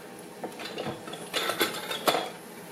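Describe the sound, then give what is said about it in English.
A utensil stirs garlic heating in a cooking pot, giving a few scattered clinks and scrapes against the metal over a low, steady background sizzle, with no talking. “I'm going to stir it up a little bit.”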